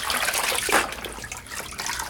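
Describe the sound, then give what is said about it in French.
Water pours and splashes steadily as a standing person is rinsed in a small room with a tiled floor, a continuous hissing wash with one brief louder gush partway through. “Mets-toi debout, je vais te rincer.”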